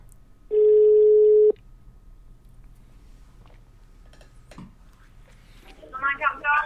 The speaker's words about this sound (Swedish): Nu ringer vi.